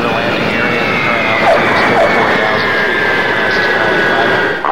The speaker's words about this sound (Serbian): Ovo nije za ir, ovo je za air. Sonic boom. Avijacija u Zairu.